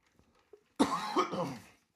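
A short fit of a few dry coughs from a man with allergies and a tickle in the back of his throat. The coughs come close together after near silence.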